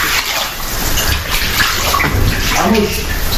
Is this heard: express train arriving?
no